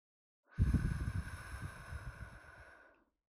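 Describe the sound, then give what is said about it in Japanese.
A single breath blown straight onto a microphone makes a sudden rumbling gust of noise that swells at once, then thins and fades over about two and a half seconds. “ふう、 息を吹きかけるのか。 こうか。”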